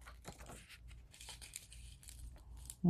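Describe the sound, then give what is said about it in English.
Pinking shears cut paper from junk mail envelopes in a quiet run of crisp snips and papery crunches, ending with a sudden louder knock. “I'm just going to grab these and cut something cute out of this. So... okay. Praying for straightness, praying for straightness. Go straight, please cut straight.”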